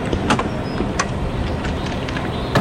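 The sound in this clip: Steady road noise from a car on a nighttime drive hunting for pythons crossing the road: a continuous, even rumble with a few faint clicks and ticks above it.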